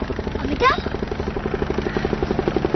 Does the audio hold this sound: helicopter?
yes